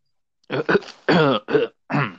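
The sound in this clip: A man clears his throat in a series of rough, voiced rasps and grunts, several short bursts in a row with brief pauses between them.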